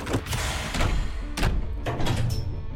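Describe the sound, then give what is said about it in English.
A robot opens a supply crate in a video game, giving a few heavy mechanical thuds and door-like slams spaced across a short span. “And I'm gonna have the robot open the supply crate.”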